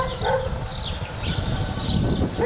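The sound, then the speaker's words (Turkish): A stray dog in a rural village yelping and whimpering, a few short high cries over a rough, constant noisy background. “Sahipsiz köpek 1,5 yaşındaki çocuğa saldırdı.”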